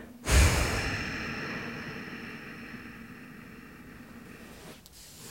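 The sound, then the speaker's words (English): A person exhales deeply during a guided breathing exercise. The breath is a soft, breathy rush that begins abruptly and slowly fades over several seconds, with no talk. “Exhale.”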